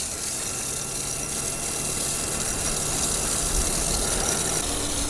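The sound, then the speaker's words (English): A motorized bicycle engine runs with a slipping clutch, making a harsh, rough drone that stays steady and loud for the whole stretch, with no talk over it. “once I start up the motor, it sounds horrific and the clutch slips nonstop.”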